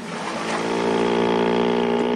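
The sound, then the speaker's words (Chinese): Motorboat engine speeding across a lake toward the shore, a steady humming drone that swells slightly louder and holds. “一艘摩托艇呼呼地由湖里驶来，很快到了岸边。”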